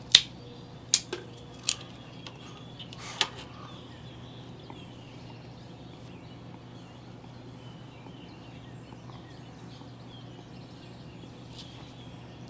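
A few sharp snips and clicks sound as the cap is cut off a Crowned Heads Azul y Oro cigar, crisp brief hits early on, then near silence over a low background hum.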